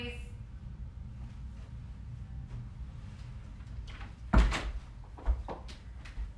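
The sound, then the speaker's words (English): A door is shut, landing as one dull, solid thud, then a couple of softer knocks, over a low, steady background hum. “Let me shut my door.”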